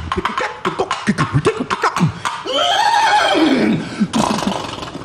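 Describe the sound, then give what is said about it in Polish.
Horses are heard: a quick run of rhythmic hoof-like beats, then a long, loud whinny that rises and falls in pitch, followed by a shorter, noisier burst. “Ponieważ u nas wszystko jest zaczarowane, to koniki też chodzą do rytmu.”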